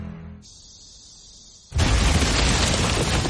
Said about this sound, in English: That was the bomb that still makes Kent jump.